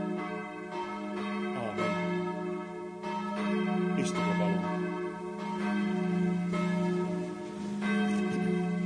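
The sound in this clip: Church bells ring in steady overlapping strikes, their rich, sustained tones blending into a continuous resonant peal that stays even in loudness throughout.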